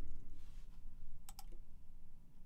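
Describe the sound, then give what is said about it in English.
Someone types a command on a computer keyboard in an Ubuntu terminal: a short cluster of a few quick, soft key clicks in the middle of an otherwise quiet stretch. “Before I install the software, I'm going to type sudo apt update to update references.”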